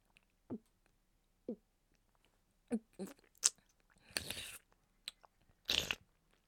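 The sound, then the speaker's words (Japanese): Soft, wet chewing and biting on rich, springy ramen noodles, heard as a few faint, separate mouthfuls with quiet pauses between them and a couple of longer, noisier bursts toward the end. “社長の濃厚プリプリラーメンいただきますね。”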